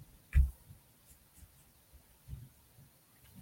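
Faint pencil scratching on paper while drawing quick thumbnail sketches of shapes, soft and intermittent, with a low thump near the start and long quiet gaps.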